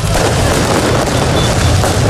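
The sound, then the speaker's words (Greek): Fireworks go off at a street celebration of a championship win in Paris, with flares in the crowd. The sound is a loud, dense, continuous wash of booming and crackling with no distinct pauses. “Βεγγαλικά και συνθήματα συνθέτουν το εορταστικό σκηνικό στην πόλη του Φώτος.”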